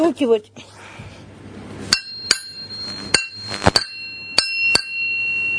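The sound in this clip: Metal tapping on an axe head used as an anvil gives several bright clinks that each leave a lingering metallic ring, spaced unevenly after a brief voice at the start.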